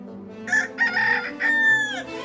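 A rooster crows at dawn aboard a ship, a loud, tonal, harmonic call in several drawn-out segments, the final note long and sustained, heard alone without talk.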